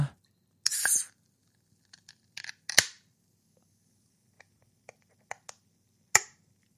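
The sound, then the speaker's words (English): A beer can cracked open with a sharp metallic snap and a short fizz, followed by scattered quiet clicks and taps. “Okay, let's crack this beer.”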